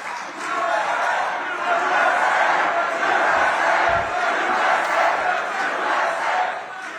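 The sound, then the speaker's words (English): A big crowd cheers and shouts at a political event, a loud, sustained roar of many voices blending together with small swells and no pauses. “Thank you very much. This is a big crowd of people.”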